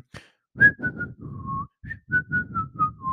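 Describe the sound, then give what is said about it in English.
A person whistles a tune: a string of clear, high, pure notes, some short and some held, moving up and down in a simple melody with brief gaps between phrases. “I start whistling”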